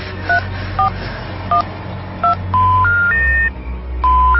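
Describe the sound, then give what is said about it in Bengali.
Telephone dialing tones: a few short, evenly spaced touch-tone key beeps over a low hum, followed by longer steady tones that step upward in pitch. “আমাকে এখনই এখনই phone দিতে হবে, সচিবকে phone দিতে হবে।”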